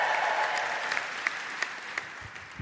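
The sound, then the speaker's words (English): Audience applause at a live comedy storytelling show: dense, steady clapping that eases slightly over time, with a few sharper individual claps standing out. “Round of applause.”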